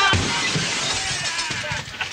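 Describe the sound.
Glass shatters and crashes in a dense burst of bright, breaking and tinkling noise that stays loud across the whole stretch, with repeated sharp fragments throughout.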